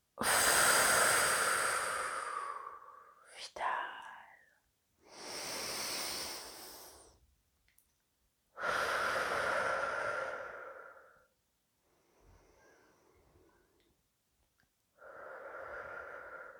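Slow breathing in and out during a guided breathing exercise: long, airy inhales and exhales of steady loudness, separated by short quiet gaps, with a softer final breath after a longer pause.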